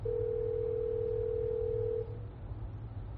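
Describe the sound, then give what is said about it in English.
A telephone dial tone: a steady, unbroken mid-pitched tone holds for about two seconds and then cuts off, leaving a low hum and faint hiss. “Okay, I'm just dialing 061. Okay, here we go.”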